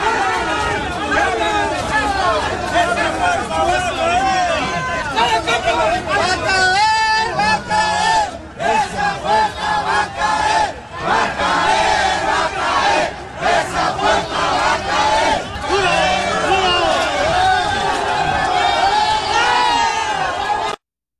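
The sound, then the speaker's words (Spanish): Loud crowd shouting and chanting from protesting teachers forcing open metro station gates, a dense roar of many voices sustained throughout with only brief dips. “Estaba el servicio operando de manera normal y luego cerraron las puertas ante la presencia de los profesores de la CENTE, pero ellos no se quedaron pues quietos, finalmente lograron abrir las rejas de esta manera.”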